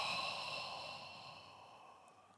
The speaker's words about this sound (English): Take a deep breath in and blow into your solar plexus chakra.